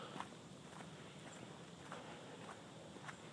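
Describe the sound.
Footsteps of a person walking on a training walk the day before a half marathon: faint, soft, evenly spaced steps at a steady pace, several in a row over a constant background hiss.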